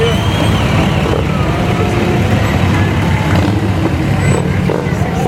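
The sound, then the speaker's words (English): Harley motorcycles ridden past by a veterans' riders group in a Christmas parade produce a loud, continuous low engine rumble that holds steady throughout. “Entry number 41 is the American Legion Riders on their Harleys”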